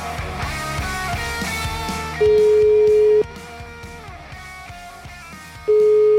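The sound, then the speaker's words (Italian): Ringing tone of an outgoing telephone call: two loud, steady, single-pitched tones, each about a second long, separated by a longer pause, following a stretch of background music. “Chiamiamo Semproni, vai!”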